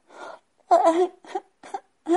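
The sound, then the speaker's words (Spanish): Pinocchio, the wooden puppet, is voiced crying alone at home. Five whimpering, wailing sobs come in uneven bursts, with short silent gaps between them. “Al llegar a casa, Pinocho descubrió que Gepeto no se encontraba y empezó a sentirse tan solo que rompió a llorar.”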